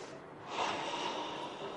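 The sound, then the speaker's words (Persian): One long, quiet, deep intake of breath, airy and breathy, rising slightly in loudness and then holding steady. “یه نفس عمیق بکش اصلا. بکشم یه نفس عمیق بکش.”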